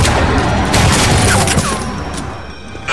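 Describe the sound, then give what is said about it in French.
Gunfire from men in a car: a loud, dense barrage of shots that blurs into a continuous harsh roar lasting almost the whole clip. “Mais il y a des mecs en voiture qui nous ont tiré dessus, là.”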